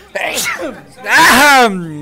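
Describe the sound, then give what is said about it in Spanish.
A sneeze from a host during a radio programme. A short voiced catch of breath comes first, then a loud, harsh, voiced burst that stops abruptly. “Es segunda vez que estoy estornudando en el programa, qué bárbaro.”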